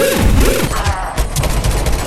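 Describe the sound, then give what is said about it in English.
A loud, dense burst of gunfire, with many sharp shots crowding and overlapping in quick succession, fills the whole stretch without a pause. “Gunshots. Gunshots.”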